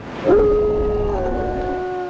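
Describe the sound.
A dog lets out a long, sustained howl. It opens with a brief upward slide, then holds one steady pitch for nearly two seconds over a rough, noisy background.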